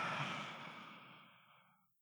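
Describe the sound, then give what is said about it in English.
A single deep, slow relaxation breath, a soft, airy sigh-like exhale that starts moderately and fades steadily into silence within about two seconds, faint and with no talk. “You took in such a deep breath.”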